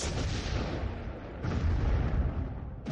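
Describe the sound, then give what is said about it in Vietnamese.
A deafening explosion bursts outside: a dense, loud, low rumbling roar that swells partway through and lingers without fading, with no voices. “Mộng Trường Phong đang nói thì bên ngoài bỗng vang lên một tiếng nổ đinh tai nhức óc, âm thanh vang vọng lên tận mây xanh.”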